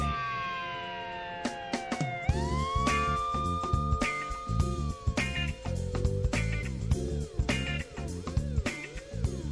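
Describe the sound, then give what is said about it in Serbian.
A police car siren wails as it arrives, its tone sweeping slowly down and up over a rhythmic, beat-driven backing. “Ej, stiže policija pred MUO.”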